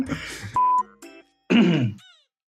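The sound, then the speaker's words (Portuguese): Someone clears their throat in a few rough, rasping bursts with short pauses between them. The loudest and longest burst comes near the end. “Não, eu realmente tava precisando limpar a garganta.”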